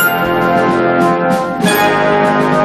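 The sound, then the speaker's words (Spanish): Opening theme music from the 1971 BBC historical drama series Elizabeth R: loud, sustained orchestral tones with ringing, bell-like notes, shifting once partway through. “Está sonando el comienzo de una serie producida hace solo 50 años por la prestigiosa BBC británica. Su título fue Elizabeth R.”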